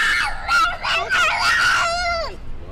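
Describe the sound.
A toddler screams in a tantrum with a long, high-pitched wail that wavers and breaks in places before ending on a falling cry.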